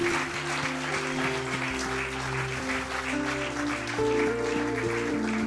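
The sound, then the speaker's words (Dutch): A church audience applauds Pastor Chris with a steady wash of clapping over sustained musical tones that shift pitch a few times. “Why don't we give Pastor Chris a great big hand? Laten we Pastor Chris een groot applaus geven.”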